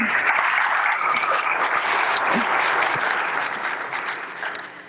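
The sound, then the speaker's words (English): An audience applauds a parishioner at a Catholic church gathering: steady, dense clapping throughout that eases slightly at the end. “So give her a great big hand.”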